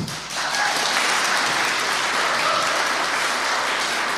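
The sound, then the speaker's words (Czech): Audience applause rolls on as a dense, steady wash of clapping, holding loud and even from start to finish with no voices over it. “já děkuji za tento potlesk, ale myslím, že nebyl dostatečně intenzivní.”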